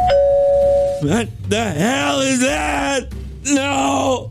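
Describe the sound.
A doorbell rings once with a steady tone at the start. A man then groans and shouts in alarm.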